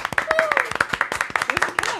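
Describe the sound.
Small group clapping to welcome a newly introduced office assistant. Sharp, uneven claps come in a quick, irregular rhythm while a high voice cheers over them.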